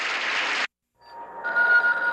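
A telephone rings in a home while someone is housekeeping: a vacuum cleaner's loud whir cuts off abruptly, and after a brief silence a bright, steady ringing tone begins and continues.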